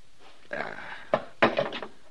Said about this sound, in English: I got a gun that says you both better stand steady. Mind your own business, mister. Keeping order is my business. Drop that knife. You ain't... Drop it!